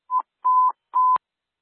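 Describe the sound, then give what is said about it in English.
Radio test tones for a station check: three steady mid-pitched beeps, the first short and the next two longer, each ending in a brief crackle. They sound alone, with silence between. “Could I get some test tones and a 5 count for station 74, please?”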